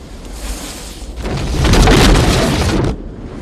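A house explodes behind a man in a film street shootout: a loud, broad rumbling roar that swells toward the middle and holds for about a second before cutting away to a quieter rushing noise.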